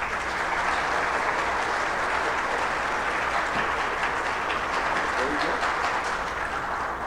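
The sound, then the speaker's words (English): A church audience applauds as a woman comes forward before her baptism. The clapping is dense and loud, and it continues steadily for about seven seconds. “Give her a hand, guys.”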